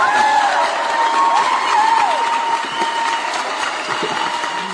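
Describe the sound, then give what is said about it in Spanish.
A cheering-and-applause sound effect plays: a dense crowd roar with whoops and whistle-like tones, held at a steady, loud level throughout. “A ver, súbanle los aplausos. A ver, otra vez.”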